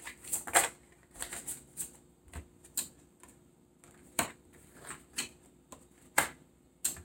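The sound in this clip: Tarot cards being shuffled and drawn for a reading, heard as a series of soft, sharp flicks and taps at an uneven pace, with quiet gaps between them and no talking.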